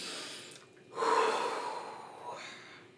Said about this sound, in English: Take a cleansing breath.